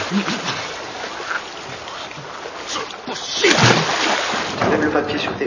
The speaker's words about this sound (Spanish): Cae en un río.